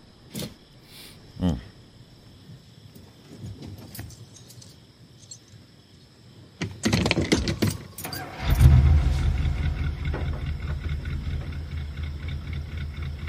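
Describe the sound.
A car engine being started: keys jingle a few times first, then the starter cranks and the engine catches into a steady, rumbling idle.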